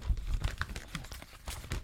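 Christmas gift wrapping paper is torn open: faint, irregular ripping and crinkling bursts continue with no pauses.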